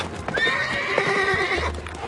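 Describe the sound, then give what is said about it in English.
A horse pulling a chariot neighs in a long, wavering whinny over the clatter of hooves. The sound is continuous and moderately loud throughout. “Then the Spirit said to Philip, Go near and overtake this chariot.”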